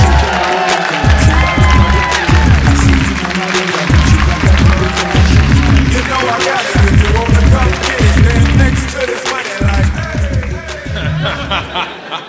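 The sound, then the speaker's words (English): Loud audience cheering and applause greet a guest at a live comedy show, a sustained crowd roar with whoops and laughter running over a rhythmic backing throughout. “Give it up for Eliza Skinner!”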